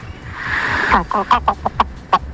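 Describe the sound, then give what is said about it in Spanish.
A hen clucking: a drawn-out, squawking call gives way to a quick run of short, sharp clucks, loud and close, with uneven spacing between them. “Llegó mi gallina, llegó mi gallina.”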